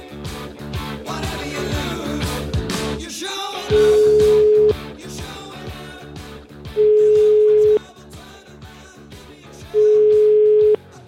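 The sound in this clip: Telephone line tone while placing a call: three steady, evenly spaced ringing beeps, each about a second long, sounding over loud background music.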